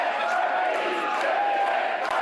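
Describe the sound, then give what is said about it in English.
A crowd chants at Parti Québécois headquarters during a political gathering. Many voices blend into a steady, sustained roar of massed shouting that holds at an even level. “Quebec, a country, chanted the crowd at PQ headquarters.”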